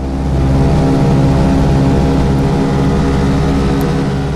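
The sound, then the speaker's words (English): A propeller airplane with radial engines taking off from Camarillo Airport, giving a loud, steady droning roar that holds throughout without pause. “A few minutes later, it's liftoff from Camarillo Airport.”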